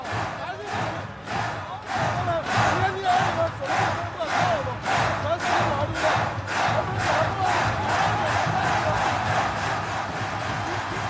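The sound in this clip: Loud home crowd at a basketball game during a timeout, roaring and chanting in steady rhythmic bursts that pulse over a constant wall of noise throughout.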